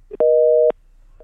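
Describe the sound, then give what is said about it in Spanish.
A telephone busy tone sounds after a dropped phone call: one steady, clear beep lasting about half a second, loud against near-silence, with faint noise just before and after. “Se nos cortó la llamada con Santiago Nieto”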